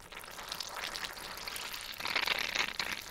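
Fermenting kimchi brine fizzes and bubbles in a jar with a faint, crackly, high-pitched hiss of tiny popping bubbles. The bubbling grows noticeably busier and louder in the final second.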